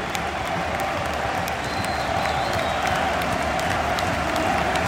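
Football stadium crowd roaring as the teams come out, with Coventry fans among the supporters: a thick, constant wall of cheering and clapping that holds steady at an even level.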